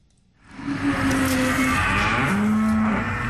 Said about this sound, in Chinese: 走进河北天河肉牛种业有限公司的犊牛舍，记者远远就看到一头黄白相间的牛犊正在低头咀嚼草料。